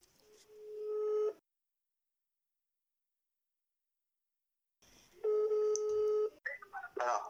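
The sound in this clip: Telephone keypad dialing tones as a dropped call is redialed: two bursts of steady electronic beeping separated by a long silence, then a few short chirpy sounds.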